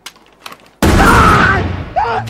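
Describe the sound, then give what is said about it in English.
A single loud rifle shot fired into the air on a snowy mountain: a sudden sharp blast with a long, rolling decay. A brief voice follows just after. “Corey fires the rifle into the air”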